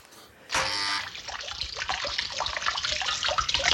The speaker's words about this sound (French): Madame Harpel est si fière avec sa fontaine poisson qui lance son jet d'eau